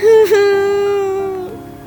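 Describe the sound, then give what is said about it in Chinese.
A child, Xiao Bo, crying loudly: one strong, sustained wail at a steady pitch that dips slightly near the end and slowly fades. “小波啊，他大声哭了起来。”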